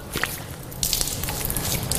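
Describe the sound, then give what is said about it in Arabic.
Water is splashed onto a face from cupped hands while washing. A small wet slap comes first, then a louder run of splattering and dripping. “هكذا غسل الوجه. هكذا أخذت الماء بيدي ثم غسلت وجهي”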